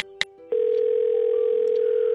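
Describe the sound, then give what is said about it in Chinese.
A telephone dial tone sounds while calling someone back. A couple of brief clicks and a short beep come first, then one steady, loud, unbroken tone holds to the end. “他一查果然好几个他爸的未接来电，他赶紧拨了回去。”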